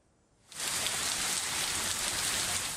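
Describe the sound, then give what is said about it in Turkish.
Heavy rain pours down in a severe storm with hail. After a brief quiet moment it starts abruptly, then settles into a dense, loud, steady hiss of rain on surfaces. “Sağanak yağış, dolu ve şiddetli fırtına.”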